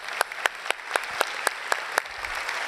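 A church audience applauds first-time visitors with faint, sparse claps landing in a fairly even beat, each one crisp and separate rather than blending into a roar.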